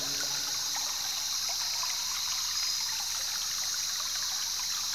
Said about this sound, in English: Look now for the closest stream and go there to partake of its waters.